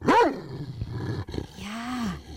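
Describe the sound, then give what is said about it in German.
A grumpy, bad-tempered dog growls, opening with a loud, harsh snarl that drops into lower rumbling growls and ends on a drawn-out tonal whine. “Das war ein Hund, der gerade nicht so gut gelaunt ist.”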